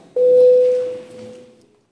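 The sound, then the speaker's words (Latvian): A single sustained electronic bell tone from a parliament chamber bell rung before a vote, starting abruptly, holding steady, then fading out over about a second and a half, with no talk. “lūdzu zvanu. Balsosim par likumprojektu”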